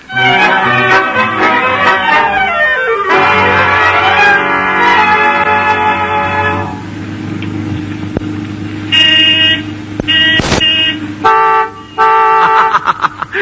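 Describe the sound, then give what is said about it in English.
Loud car horns honk in long, sustained blasts with a rich, tonal sound. The pitch sweeps early on, then steadier horn notes follow, and a burst of shorter, choppy honks comes near the end. No one speaks. “Did you hear that? My horn's louder than his.”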